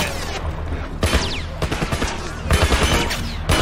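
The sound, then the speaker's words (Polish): Video game gunfire crackles in loud bursts of rapid automatic shots, broken by short pauses, with sharp cracks and booming low impacts throughout. “Ty, on do mnie strzela.”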